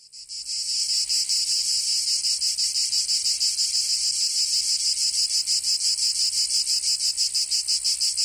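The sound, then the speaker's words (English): Cicadas in full summer chorus: a loud, continuous, high-pitched insect drone with rapid, even pulsing. It swells in within the first half second and holds steady throughout, with no voices. “That's the sound of the cicada, one of the noisiest insects in the animal kingdom and synonymous with summertime in many parts of the world.”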